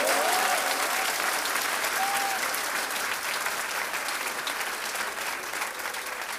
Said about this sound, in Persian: دست بزن درست